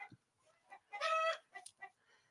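Chicken clucking and squawking: a loud, drawn-out harmonic squawk in the middle, with several short, sharp clucks before and after it, and no talk.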